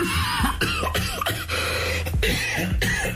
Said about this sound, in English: How about my cough